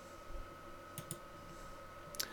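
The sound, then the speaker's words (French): Faint clicks of a computer keyboard key and mouse while image frames are created in layout software. A few sharp, isolated taps stand out over a quiet hum. “Je vais utiliser le raccourci I pour aller plus vite.”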